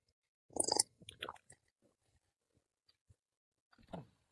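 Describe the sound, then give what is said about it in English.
Quiet chewing of food while eating, with a few wet mouthfuls separated by soft clicks and pauses. A final chew comes near the end. “Between some nice, delicious food. I needed to eat. You know, your boy gets hungry.”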